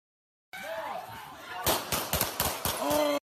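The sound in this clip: Gunfire from police officers in a Philadelphia shooting video: a rapid volley of several sharp, loud cracks bursts out after a stretch of murmuring, with voices audible before and around the shots.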